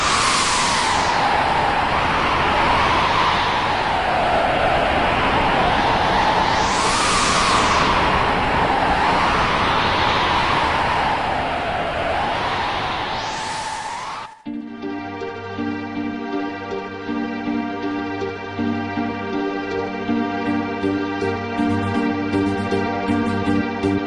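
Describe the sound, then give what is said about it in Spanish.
Wind blows around Terra and Magitek soldiers in a video game scene, a hollow whoosh that swells and fades in repeated gusts before music takes over with a steady, rhythmic pattern. “después tienes el sonido del viento con Terra en ese Magitek y los otros dos soldados”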